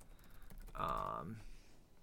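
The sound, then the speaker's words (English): Quick, light keystroke clicks on a computer keyboard, with a few fast taps at low level. “I typed in Tethered tree stand.”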